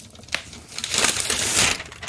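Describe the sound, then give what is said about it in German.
Paper wrapping torn open on a black package: a brief sharp crackle, then a sustained, loud crinkling rustle of paper being pulled and crumpled that fades out near the end. “So, Papier habe ich jetzt aufgemacht.”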